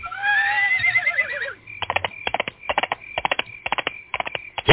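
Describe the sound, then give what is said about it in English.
A horse gives one loud, wavering whinny that falls in pitch. A long run of quick, rhythmic hoof clops follows in regular clusters. “Get on, Horsey. There you go.”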